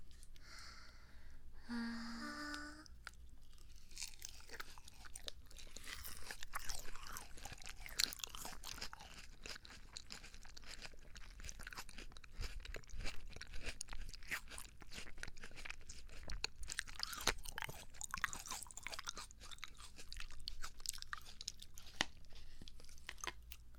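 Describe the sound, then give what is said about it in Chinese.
Quiet chewing and crunching of melon, with many soft wet bites and crunches continuing steadily throughout, faint and close without any talk. “吃瓜，吃瓜，可好吃了。 我们喂你。”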